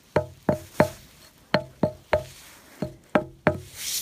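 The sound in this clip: Footsteps on a hollow-sounding boulder ring out as eight resonant, knocking thuds in uneven groups, each with a short tonal, drum-like ring.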